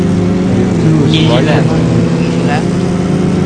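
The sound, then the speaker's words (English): Car engines droning in a multiplayer racing video game, a steady buzzing, harmonic hum held throughout, with a few brief, higher swooping tones rising over it near the middle. “Start your engine. 3, 2, 1, go.”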